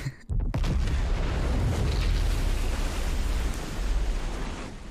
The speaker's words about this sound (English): That was the missile, what do you mean? That was the missile that they sent.